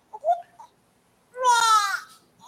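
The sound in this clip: A baby cries in one loud, wailing burst lasting under a second, after a few soft, short vocal sounds.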